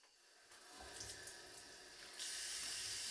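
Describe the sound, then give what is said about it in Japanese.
Water runs from a tap while something is rinsed: a faint, steady hiss starts after a brief quiet moment and grows noticeably louder near the end. “流し残しがないように。”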